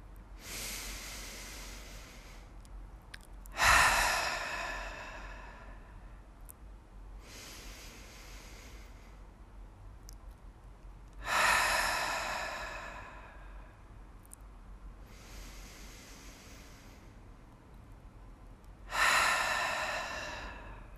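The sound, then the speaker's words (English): Three slow, deep cleansing breaths, each a soft drawn-in inhale followed by a louder, airy exhale, evenly spaced with no talking. “let's take three cleansing deep breaths together and I will begin.”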